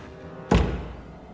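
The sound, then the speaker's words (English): A door closes upstairs in a house with one dull, low thud that dies away quickly over a faint, steady background. “Upstairs, a door closes.”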